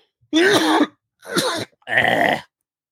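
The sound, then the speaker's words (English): A person with a tickle in the throat clears it in three rasping, voiced bursts with short pauses between them, loud and alone. “I tickle my throat.”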